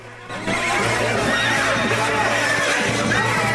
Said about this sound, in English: His back to the water, Stripes watches the horses close in.